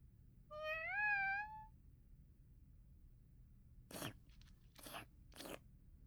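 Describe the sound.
A cat meows once with a wavering tone, then after a pause eats a bonito-flavoured stick-type treat, making a few faint, crisp crunching bites in quick succession.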